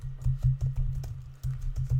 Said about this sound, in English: Sorry, folks, I gotta type this in. I can just type